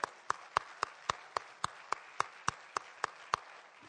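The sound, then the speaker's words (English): A church audience claps together to welcome new members, keeping a steady beat of about thirteen sharp claps that stay fairly faint and even. “I want us all to put our hands together and welcome our new members.”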